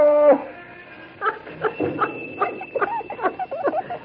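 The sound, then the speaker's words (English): A dog whines briefly, then lets out a run of high, broken yips and whimpers of varying pitch over a faint steady tone. “All right, doggy. He sure looks funny with that sack of potatoes on his back, don't he?”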